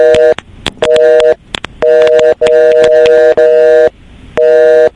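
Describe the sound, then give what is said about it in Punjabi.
A telephone line gives out a repeated tone after a call is disconnected. Loud, steady electronic beeps sound in broken stretches, separated by brief gaps and a few sharp clicks. “Okay ਇਹ ਜਿਹੜੀ ਥੋੜੀ to to ਦੀ ਆਵਾਜ਼ ਸੀਗੀ ਇਹਦਾ ਮਤਲਬ ਸੀਗੇ phone ਆਪਾਂ ਰੱਖ ਦਿੰਦੇ ਹਾਂ”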